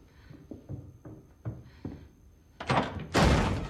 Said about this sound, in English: The door flies open.